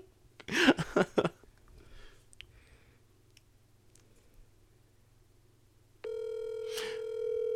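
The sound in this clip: A steady telephone dial tone sounds while a call is being redialled. It comes in loud and unbroken for the last couple of seconds, after a few brief bursts at the start and a long quiet stretch.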